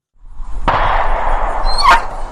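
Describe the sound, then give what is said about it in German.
A dog barks and whines in a short, steady burst of tonal, mid-pitched sound. It carries two sharper onsets within the run and stays fairly loud, with no talk over it. “es ist ein Hund.”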